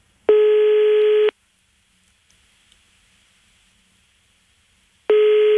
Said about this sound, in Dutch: Ik zie net dat ze een voicemailbericht in mijn voicemailbox heeft afgelaten. Even daar naartoe bellen hoor.